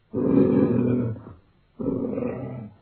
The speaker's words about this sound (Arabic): وفجأة ظهر الأسد ملك الغابة الحقيقي أمام الفيل